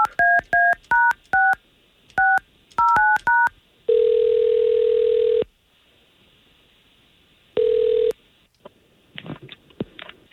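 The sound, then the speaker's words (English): A telephone is dialed to call someone: a quick run of touch-tone beeps in short bursts, then two long, low, steady ringback tones with a pause between them. “If we can, let's see if we can't get Tara on the line and get you two talking.”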